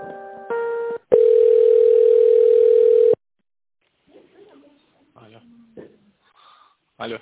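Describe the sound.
Telephone ringing tone while a call is transferred: short tonal beeps give way to one steady, mid-pitched tone lasting about two seconds, then a pause and faint voice-like sounds.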